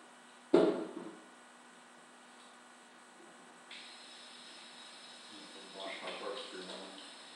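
Running water from a tap washes a corkscrew after a wine bottle foamed over. A sharp knock sounds near the start, followed by a steady hiss of flowing water through the second half, with light splashing toward the end.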